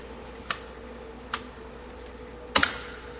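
Computer keyboard keys pressed while using shortcuts and arrow keys in a spreadsheet: a few sparse, crisp clicks spaced apart, the last a quick double tap, over a faint steady hum.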